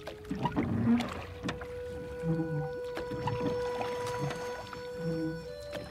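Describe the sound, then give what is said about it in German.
A rowing boat is moved by an oar across water at night, gliding almost silently: quiet swishes and gurgles of water with a few soft, low creaks as the oar strokes, and no talk. “bewegte den Riemen so geschickt, dass das Boot fast geräuschlos dahin eilte.”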